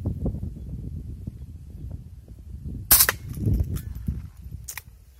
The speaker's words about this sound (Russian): нормально стреляет